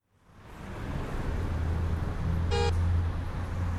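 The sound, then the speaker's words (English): Traffic roars steadily at the busy intersection of Comm Ave and St. Paul Street in Boston, fading in at the start, with one short car horn toot partway through. “The southwest corner of the intersection of Comm Ave and St. Paul Street is a busy place.”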